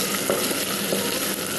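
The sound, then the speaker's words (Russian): Diced carrots and onions fry in a pan, making a steady, dense sizzle with crackling that stays even throughout, with no voices. “Сейчас отправляем овощи, морковку, репчатый лук для обжарки.”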